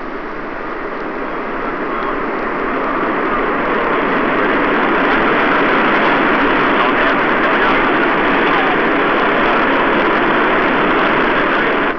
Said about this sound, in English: and we can distinctly feel, as the reheat comes on, the aircraft accelerating and climbing very slightly